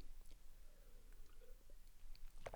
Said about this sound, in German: Warte, ich muss mal einen Schluck trinken.